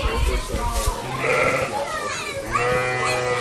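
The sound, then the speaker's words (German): Lambs bleat in a stall, giving a few high, wavering cries that overlap one another, while people talk alongside them. “Und zwar sehen wir jetzt hier ganz viele kleine Lämmchen rumtouren.”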